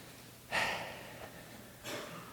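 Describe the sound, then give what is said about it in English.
A deep breath taken in as part of a group exercise: two soft, breathy rushes of air separated by about a second of near quiet, the first louder and fuller than the second, with no talking. “So, everybody with me, just take a deep breath.”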